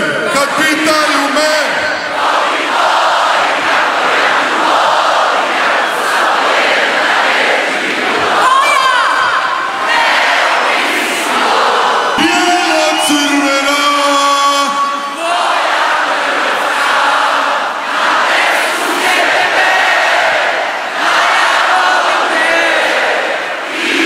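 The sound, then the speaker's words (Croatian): A huge crowd of tens of thousands of Croatian football fans sings and cheers on Zagreb's main square as the national team returns with a World Cup bronze from Qatar, a loud, unbroken roar of voices with chanted tones rising through it. “dočekali su ih deseci tisuća upjevanih navijača na zagrebačkom glavnom trgu.”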